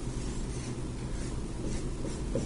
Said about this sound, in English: So I'm going to draw on the board, or attempt to draw on the board, this structure.